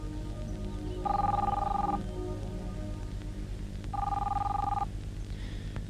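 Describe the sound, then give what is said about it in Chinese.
A telephone rings over a low background hum in two separate bursts, each lasting just under a second, with a steady high electronic trill and a quiet gap between them. “你不想接电话？”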